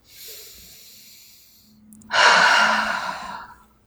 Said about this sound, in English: Good. Deep breath.